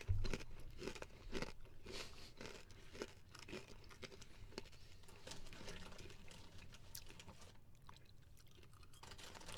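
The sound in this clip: Faint, steady crunching of a peanut-flavored, Cheetos-style puffed snack being chewed. Many small crisp bites and crackles run throughout with no talking.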